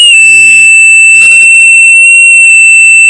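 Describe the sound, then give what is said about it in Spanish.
A steady, high-pitched electronic beep holds unbroken through the whole stretch, loud and unwavering. Brief bursts of talk pass over it without interrupting the tone. “Ahora pitido. Pitido.”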